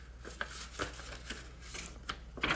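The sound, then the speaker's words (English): Paper crinkling as the folded paper J-card insert of a CD case is opened out, a few soft rustles and sharper crackles scattered over steady low background noise, faint, with no voices. “I'm unfolding the J card for the CD right now, and it's not cooperating.”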